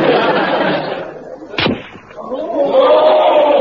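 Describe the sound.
A single sharp rifle crack rings out during shooting practice at a target, a short loud burst standing out against a steady wash of background noise, with voices following afterward.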